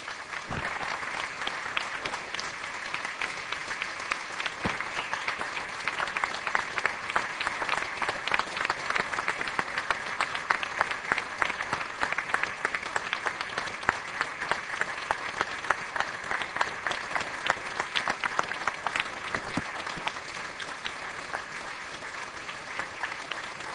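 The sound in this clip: Dense, steady applause from an audience welcoming Senator Barack Obama, continuing unbroken and fairly even in loudness throughout without a clear peak or ending.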